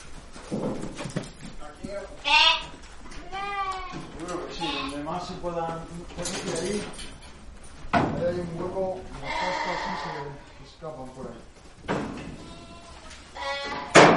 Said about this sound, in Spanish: Nos hemos venido a la Casa de Campo, que es la gran zona verde de Madrid, y a mucha gente le sorprendería encontrarse con esta estampa, con un gran rebaño de ovejas